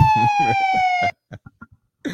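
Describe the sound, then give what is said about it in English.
Siren sound effect: a loud, steady, high wail with rich overtones that slides slightly downward for about a second over thumping low pulses, then cuts off abruptly, leaving a few short clipped sounds. “Yeah, you want the siren. You want the siren, bro.”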